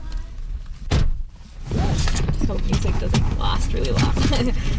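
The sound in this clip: A car door thunks shut, then steady road and engine noise follows as the car sets off on a drive, with people talking over it.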